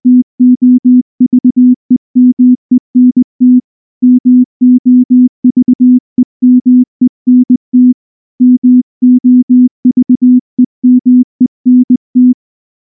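Telephone tone: many short, steady low-pitched beeps pulse in quick groups separated by brief gaps. The tone is loud and stands alone, with no voices.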